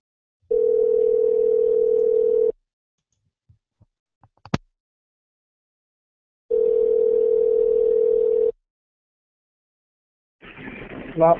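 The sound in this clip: Telephone tone at the start of a prank phone call: two steady, loud hums of about two seconds each, separated by a long pause with a few faint clicks, and a voice starts right at the end.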